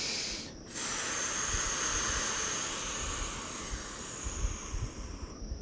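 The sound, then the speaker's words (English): A deep breath: a long, steady, airy hiss that starts after a brief quiet gap and runs for several seconds before easing off at the end. “So I'm gonna take another breath.”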